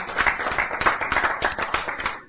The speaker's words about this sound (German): Ah, kommt, dürft ruhig klatschen.